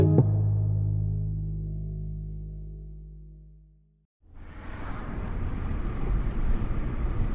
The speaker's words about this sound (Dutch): We rijden door de Veluwe. Het is zonnig en we zoeven door het typische landschap dwars door de weelderige bossen.